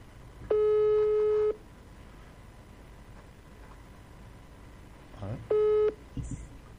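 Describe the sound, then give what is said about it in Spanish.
Telephone line tone as a live phone call is placed: two long, steady, mid-pitched beeps of about a second each, separated by several seconds of low background noise. “Ponemos de vuelta, estamos llamando en vivo ahí a Moreno.”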